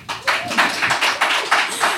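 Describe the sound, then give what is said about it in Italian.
Audience applause at a cabaret reading performance, a rhythmic, fairly even run of claps in a steady beat of roughly three or four per second, moderately loud with no talk over it. “Applauso.”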